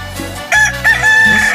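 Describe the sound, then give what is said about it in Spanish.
A rooster crows one long, loud call that starts abruptly after a brief low hum. The crow is bright and strongly harmonic, holding a steady high note for about a second. “Que cante el gallo, que cante mi gallo, véngase para acá mi gallo.”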